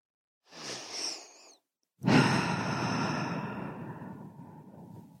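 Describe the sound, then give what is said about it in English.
A single deep breath during a guided breathing exercise with hands on the stomach: a soft, airy inhale followed after a pause by a long, louder exhale that slowly fades. “just have your hands on your stomach and take three deep breaths.”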